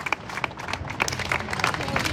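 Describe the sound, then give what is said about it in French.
Applause closes a memorial white march and balloon release in Carcassonne, with scattered, irregular claps rather than a full ovation, moderately loud and uneven over a couple of seconds. “Cette marche blanche et ce lâcher de ballon qui se termine donc sur ces applaudissements à Carcassonne”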